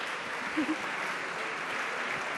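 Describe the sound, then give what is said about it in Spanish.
Soft applause from a group after a correct answer in a music quiz, a faint, even patter of clapping that stays steady for the whole clip. “¡Era el oboe, efectivamente! ¡Era el oboe! ¡Un aplauso!”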